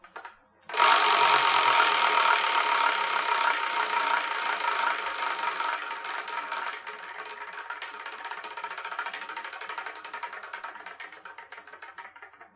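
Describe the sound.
A spinning prize wheel clatters with rapid, dense ratcheting clicks. The rattle starts loud and gradually grows fainter and sparser as the wheel winds down.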